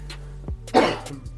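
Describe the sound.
Coughing and throat clearing from a person during a football talk discussion: a few short, rough bursts, with one louder, harsher cough in the middle and quieter clearing sounds around it. No speech.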